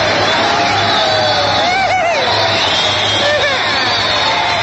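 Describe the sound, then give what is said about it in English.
Studio audience cheering with whoops and shouts rising out of a steady, dense wall of crowd noise that holds loud for the whole stretch. “Thank you, clappers.”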